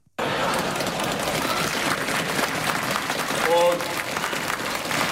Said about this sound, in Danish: Der har været bunker demonstrationer lige foran alting, og jeg synes lige, vi skal høre, hvordan det lyder.